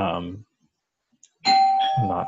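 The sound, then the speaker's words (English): A doorbell chimes with a clear, sustained ringing tone that holds steady for about a second, following a brief stretch of speech and a short silence. “nice doorbell rings in the middle of a podcast. I'm not getting up.”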